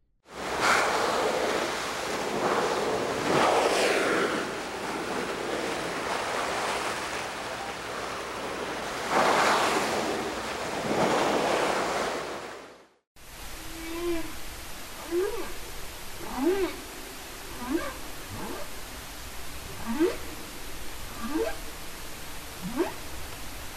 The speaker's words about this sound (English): If you guessed whales, you are right. The first sounds were the spouting that occurs when resurfacing whales breathe through their blowhole,